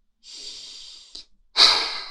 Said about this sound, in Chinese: 深呼吸